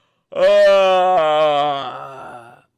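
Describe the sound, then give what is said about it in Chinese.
A voice imitates a yawn: one drawn-out, loud voiced moan that holds a steady pitch, then dips and fades away at the end, with no other sounds around it. “这时啊，商纣王打了哈欠，”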